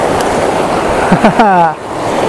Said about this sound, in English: Right, here we go into the river.